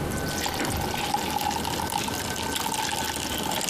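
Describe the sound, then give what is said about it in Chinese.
Water pouring into a bottle for a classroom test of whether a ping-pong ball floats: a steady, continuous rushing gurgle with a faint thin tone running through it, even in loudness from start to end. “把水倒在瓶子中，我们看乒乓球会不会浮起来”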